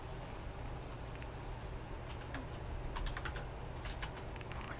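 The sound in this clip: Typing on a computer keyboard while notes for a game are written in: a loose scatter of light key clicks, busiest toward the middle, over a steady background hiss with no voices.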